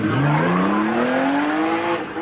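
A getaway car's engine revs hard as it speeds off in a comic chase, a loud, continuous roar whose whining pitch climbs steadily throughout, with a hint of tyre squeal.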